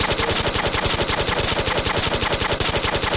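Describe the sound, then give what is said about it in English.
Rapid automatic gunfire rattles on without a break, a loud, evenly spaced stream of many shots that lasts the whole three seconds. “Just keep firing! John, this is useless. Just keep firing.”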